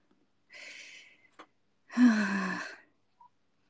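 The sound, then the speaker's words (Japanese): A person assembling a shelf takes two heavy breaths: first a soft airy exhale, then a louder voiced, sighing gasp. A faint click falls between them, and the rest is near silence. “意図せず吐息多めになってる。いや、ほんとよ。ASMR 配信みたいになってるわ。ゼーハー言いながらめちゃくちゃ組み立ててる。”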